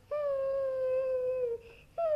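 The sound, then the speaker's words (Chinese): A voice imitates a kitten crying in a children's story about a kitten fishing: a long, steady whining wail that sags slightly at its end, a brief pause, then another cry begins. “咪咪，别哭了，下回好好钓吧啊！”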